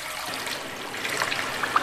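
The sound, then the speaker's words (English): Gurgling, trickling water from a clogged toilet flushed with paper towels and overflowing onto the floor, a quiet, steady wash of running water with a few small splashes near the end. “Like, here, let me flush. Why would you flush paper towels down? Yep, the water's coming up. It's going to go all over the floor again.”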